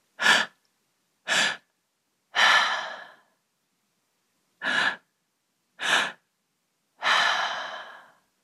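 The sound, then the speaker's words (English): Three-part breathwork breathing: two quick, sharp inhales, one into the lower belly and one into the upper chest, followed by a longer, whooshing open-mouth exhale. The pattern repeats twice with a brief quiet pause between rounds. “So it's a three-part breath, first lower belly, second upper chest, and then out the mouth. So it sounds like this.”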